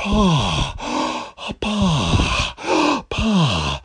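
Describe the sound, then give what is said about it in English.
A voice imitates a runner panting in a posh manner, giving a quick series of about six breathy, voiced huffs and groans. Each one slides downward in pitch, with short gaps between them. “He even panted in a posh way.”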